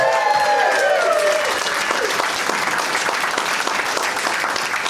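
Studio audience applause for a game show contestant: dense, steady clapping that holds at an even level throughout, with a few whoops early on.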